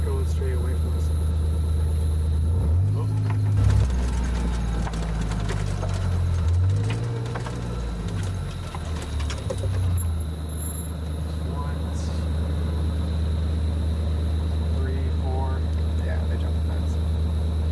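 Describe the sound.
Vehicle engine droning while driving through rough terrain on a hunting outing, a low, steady rumble that runs throughout, with voices over it at times.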